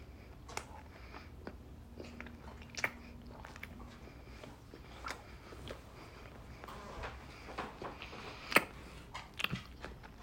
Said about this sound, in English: The spam is too small for the sandwich, so it's like there's extra eggs on either side. Let me get a good bite.